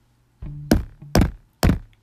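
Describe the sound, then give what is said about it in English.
Signature knocking on the door of room 107: hollow wooden thuds, a quick pair of knocks followed by two slower, evenly spaced ones, with silence around them. “She did her signature knock so that he would know that she arrived.”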